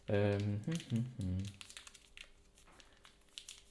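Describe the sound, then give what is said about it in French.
Plastic packaging crinkles and crackles faintly as a pair of earphones is unwrapped, after a voice speaks briefly at the start. “Bon, on va déballer quand même.”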